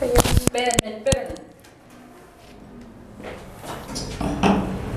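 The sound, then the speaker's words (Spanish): A window being closed gives a quick run of sharp knocks and clunks at the start, followed by quieter shuffling as people talk. “Cierro la ventana, ¿no? Sí, cierra”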